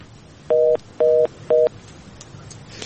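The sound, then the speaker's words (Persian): Three telephone keypad dialing tones, each a steady two-pitched beep about a quarter second long, evenly spaced in quick succession, then faint line hiss. “خب ای تماس هم میگیریم باز به سوالش هم میپرازیم.”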